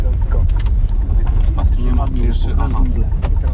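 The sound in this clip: Car engine rumble inside a vehicle during a driving lesson, a steady low drone under continuous conversation between instructor and learner, with occasional short clicks and knocks.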